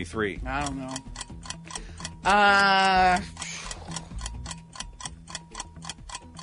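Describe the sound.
A quiz timer ticks in a steady, even rhythm, with many sharp clicks running the whole way through while people talk over it.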